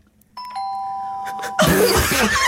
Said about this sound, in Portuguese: ouço uma campainha e eu pergunto